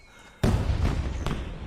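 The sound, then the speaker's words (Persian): Gunshots ring out in daylight in a village neighborhood: a few sharp, loud bangs follow a quiet start, each with a lingering rumble. “نمیفهمم چرا تو روز روشن دارن تیراندازی میکنن”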